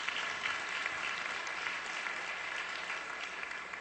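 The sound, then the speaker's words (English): A church audience gives a round of applause as a clap offering to the Lord: steady, dense clapping that stays at an even, moderate level throughout. “Yeah, I mean, give the Lord a clap offering for that one.”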